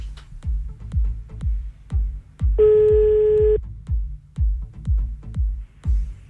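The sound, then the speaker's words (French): A telephone call being placed rings out with a single steady, buzzing ring tone about a second long, heard over a regular series of low, thudding pulses. “Allez hop, on y va, on appelle. Deuxième appel de la soirée.”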